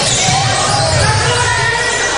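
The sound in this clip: A basketball is dribbled during a high school game, its bounces thudding under a commentator's steady talk.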